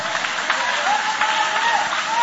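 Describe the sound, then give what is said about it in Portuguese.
A church audience applauds together, with dense, steady clapping that runs evenly through the whole short clip without a break. “Pode tomar o vosso assento, guarda a sua Bíblia com carinho e podem aplaudir a Deus com alegria.”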